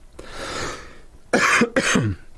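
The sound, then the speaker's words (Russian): A man coughs twice in quick succession, two loud, rough bursts that follow a softer, breathy rasp in the throat. “Даже закашлялся. Надеюсь, вы меня простите.”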